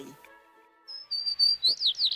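A sparrow chirps in a series of short, high, thin tweets that grow louder and quicker in the second half, with no voices.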